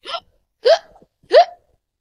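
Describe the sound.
Three sharp hiccups from a person, evenly spaced and each a short voiced gulp, standing alone with silence between them.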